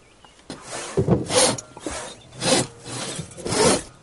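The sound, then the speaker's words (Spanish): Rasping strokes of a two-person crosscut saw cutting through a log, a few loud rhythmic back-and-forth pulls separated by short quieter gaps, with no talk. “Comienzan a cortar uno de cada lado de la sierra. La sierra se ondula.”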